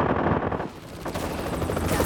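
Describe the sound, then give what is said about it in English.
Machine gun fire rakes a snowfield around a man running for a helicopter. Dense, loud and rapid, the rattling bursts continue unbroken, dipping slightly midway before surging again. “Machine gun fire stitched down on both sides of Akira Kuranami”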